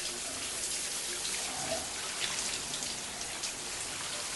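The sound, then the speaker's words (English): Shower water running as a woman stands under the stream behind a translucent curtain against a white tile wall, a continuous, even hiss of spraying and splashing water. “With her eyes closed, she turns and tips her head back into the stream. She tilts her head from side to side, luxuriating in the cleansing water.”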